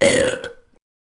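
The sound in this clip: A single short, throaty burp rumbles for about half a second and then quickly fades to silence.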